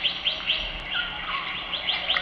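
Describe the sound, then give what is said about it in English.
Birds sing high in jungle treetops among trees over 150 feet tall, with a run of bright, repeated chirps and thinner trilling lines weaving underneath at a steady moderate level, no voices. “listen to the singing of the birds”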